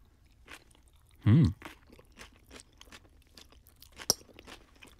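Someone chews a rice noodle salad with tofu. One loud, crisp crunch comes early, followed by quiet, irregular chewing and a single sharp click later on.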